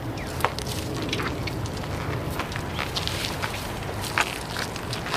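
Footsteps of people walking over to visit a woman in an audio drama: soft, irregular steps that carry on steadily over a faint, noisy background, with no voices.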